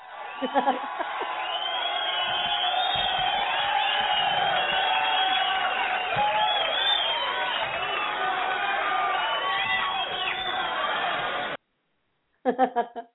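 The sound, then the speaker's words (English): Crowd cheering and whooping for a band after a live performance: a long, sustained roar of voices with shouts rising over it. It breaks off abruptly, and a brief burst of speech follows. “let's have a great big round of applause there for Deck”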